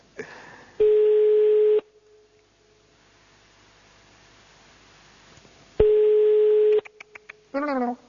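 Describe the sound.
Telephone line tones after a dropped call: two long, steady beeps a few seconds apart over faint hiss, then a few clicks and a brief burst of sound at the end.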